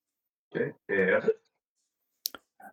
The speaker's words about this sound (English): This one lets me drink. So I'm going to move here and roll that die.